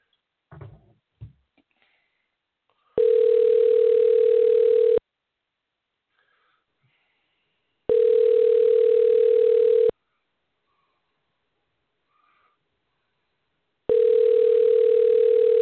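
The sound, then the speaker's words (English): Telephone ringing tone heard while a call is dialed out: three long, steady mid-pitched tones of about two seconds each, separated by equal silent gaps, the last one cut off, after some brief soft noises at the start. “Okay, so we got her dialed up.”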